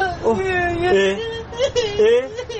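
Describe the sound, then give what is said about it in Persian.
A child crying: a whimpering, wavering wail with sobbing breaks, mixed with spoken words. “این بچه کی داره گریه میکنه؟ ابا چی عموجین چرا گریه میکنی شما؟”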